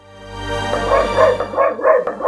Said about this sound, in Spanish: es mi perra